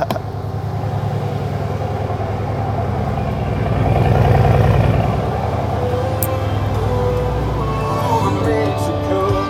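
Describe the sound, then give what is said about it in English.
A C63 car's engine running in a garage, a steady, deep rumble that swells louder around the middle before settling back to an even idle. “So right now I'm in my garage. I don't know if you guys can hear the car. Let me make you guys hear the car real quick.”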